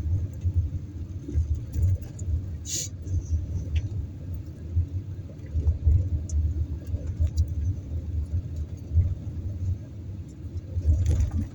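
Car driving along a back-country road: a steady low engine rumble and road noise throughout, with a brief faint rattle partway through.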